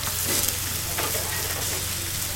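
Buckwheat pancake batter sizzles as it fries in a pan on a kitchen stove, a steady, even crackling hiss with no voices.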